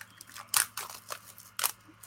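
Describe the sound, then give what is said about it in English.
Plastic wrapping being cut off a trading card pack, a few crisp snips and crinkles with brief gaps of quiet between them. “I got to cut this plastic off.”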